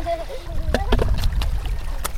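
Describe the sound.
Clothes are washed by hand in water, with irregular splashing and sloshing and several sharper slaps of wet fabric throughout.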